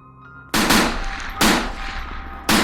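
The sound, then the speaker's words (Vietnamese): Militia gunfire, warning shots fired into the air: three loud, sharp blasts, each with a long ringing decay that trails into the next. “Nhiều tiếng đạn vang lên.”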